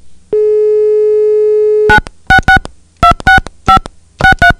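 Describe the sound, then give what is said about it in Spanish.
A telephone dial tone holds steady for over a second, then gives way to a series of short, sharp keypad beeps in quick uneven clusters with brief gaps between them, no voices present. “Vamos a hacer la marcación.”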